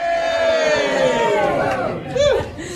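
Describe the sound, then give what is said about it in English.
A big crowd cheers and shouts at a footy final handball competition held at a Harvey Norman store. Loud massed voices answer together, with a brief louder surge of yelling near the end. “We've got a huge crowd here, haven't we, everybody?”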